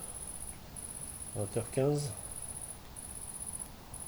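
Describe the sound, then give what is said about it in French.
A great green bush-cricket chirps at dusk beside a river with roads nearby, giving faint, high, buzzing trills in several bursts separated by short gaps. A brief lower harmonic call breaks in near the middle. “Ah, une grande sauterelle verte, Titigonia viridissima, qui s'éveille.”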